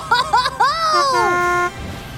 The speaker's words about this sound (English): Rumble, rumble. Ozzy set off, driving the cool truck. Charge!